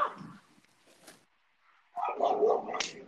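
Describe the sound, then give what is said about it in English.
A dog barks and yips, with a brief burst at the start, a quiet stretch, then a louder, busier run of barks and whines near the end. “Sorry about the dog. Sorry about the dog. A little interference here. Let me just calm her down.”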